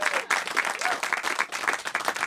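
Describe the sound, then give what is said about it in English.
Dense audience applause greets a musician's introduction, a steady, loud wash of many hands clapping that holds throughout without a break. “Give him a round of applause for that. Come on.”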